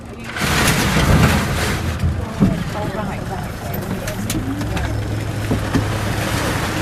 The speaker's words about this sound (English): That's the sound of the oyster punt pushing up onto the beach back at the meeting point, by the way, signalling the end of the day and the dispersal of the Landcare volunteer team too.